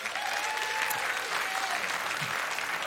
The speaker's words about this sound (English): Come on, would you give it up for our guest this morning?